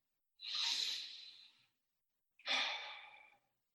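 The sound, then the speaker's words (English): Breathing by a church audience breathing together during worship: two long, airy breaths, each lasting about a second, separated by a short silence and fading gently at the end. “So may we breathe.”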